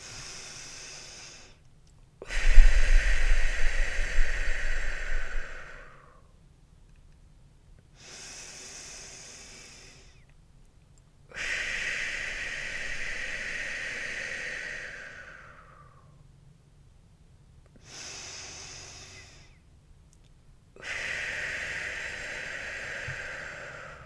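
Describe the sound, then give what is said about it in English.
Slow, deep breaths from a guided relaxation exercise, drawn in through the nose and pushed out through pursed lips. Several long breath cycles rise and fade in turn, each a soft, airy rush, with near-silent pauses between them. “take a deep breath in through your nose and out through your mouth, pursing your lips so that the air comes out of a smaller hole. This will extend the breath and help relax the body. I'm going to do it with you now.”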